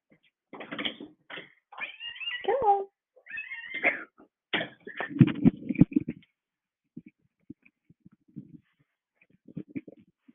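A cat meows repeatedly, mixing short calls with longer drawn-out ones in a loud string over about six seconds.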